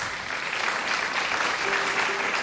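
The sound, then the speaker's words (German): Sustained audience applause after a live music performance featuring sitar, dense and steady at an even loudness throughout, with no talk over it. “Applaus.”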